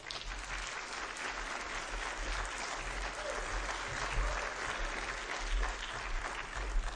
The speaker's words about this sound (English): We don't clap very often, but that deserves a clap.